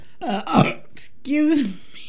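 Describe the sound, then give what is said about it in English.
A person's burp, heard as two croaky voiced bursts: a shorter rough one first, then a longer, steadier low-pitched belch, with no talk in between. “That burp sometimes? It just comes out whenever it wants.”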